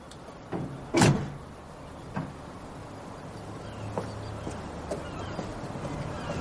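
A van door opens as someone climbs out, parked in front of a fishing harbour. One sharp thud is followed by a few faint knocks and clicks over a low, steady background.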